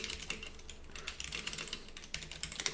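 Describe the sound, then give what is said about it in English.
Typing on a computer keyboard, many quick, light keystrokes clicking in an uneven, rapid rhythm, faint and alone without voices. “We even typed it the exact same way. At the exact same time.”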